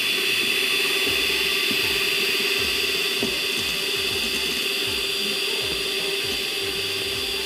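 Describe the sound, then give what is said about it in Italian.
A blender whirs steadily while olive oil is drizzled into the mixture, a loud continuous hissing drone with a low motor hum that holds unchanged throughout, no voices. “adesso aggiungiamo prima l'olio a filo, quindi mentre tu... frulli, io vengo qua”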